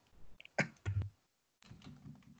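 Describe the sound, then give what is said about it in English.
Keys clacking as a search query is typed on a computer keyboard: a few sharp clicks in quick succession, a brief silent pause, then softer, muffled key activity. “Why are you making me bloody type it then?”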